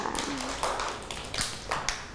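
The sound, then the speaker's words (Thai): Children at school clap for a classmate, giving scattered, faint hand claps in an irregular pattern rather than sustained applause. “ปรบมือให้น้องกีตาร์ด้วยค่ะ”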